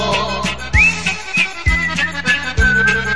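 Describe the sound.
Whistled melody in a cheerful Italian waltz song, a high, sustained tone with gentle slides carried over a band accompaniment with steady, regular bass beats.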